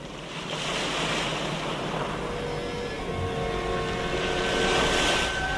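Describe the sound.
Sea waves around a ship at night make a steady, broad rush of surf mixed with wind that swells louder toward the end, with no voices.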